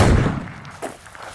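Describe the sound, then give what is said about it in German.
A rifle shot at a shooting range, fired by a shooter lying on a mat: one loud, broad blast at the start that decays quickly, followed by a smaller, fainter thump shortly after. “Nachher legt man sich auf eine Matte, bringt das Gewehr in Position und zielt. Trotz Gehörschutz blasst es einem fast die Ohren weg.”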